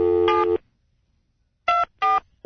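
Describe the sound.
A cell phone number is dialed as a short series of electronic keypad beeps: a longer two-part tone, a pause of over a second, then quick separate beeps in a row.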